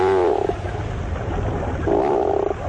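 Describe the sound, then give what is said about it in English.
Two low, groan-like calls of a tufted puffin, a seabird, each a droning, harmonic moan lasting about half a second, with a quieter stretch of rumbling between them. “Although not a first-rate vocalist, the bird making this groan-like call is one of the most recognizable to the eye. These sounds belong to the tufted puffin.”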